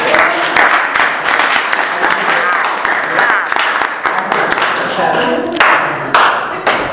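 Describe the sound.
Sustained applause at a meeting congratulating an award winner, dense clapping from many hands continuing throughout, with voices talking over it.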